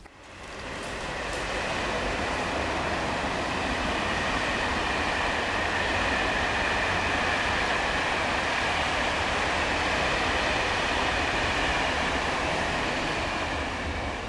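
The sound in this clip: A train crosses a railway bridge, a loud, steady rolling rumble with a faint high squeal that holds without a break for the whole stretch.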